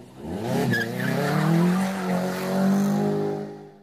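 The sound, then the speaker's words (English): Car tires squeal over a revving engine in one loud, unbroken stretch of nearly four seconds, with steady tonal engine harmonics running throughout. “light the fires and squeal the tires so we can start the travel segment”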